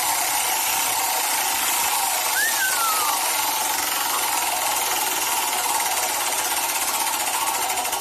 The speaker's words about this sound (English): Get your little metallic claw hand out there. Okay, and give it a spin. Spin it.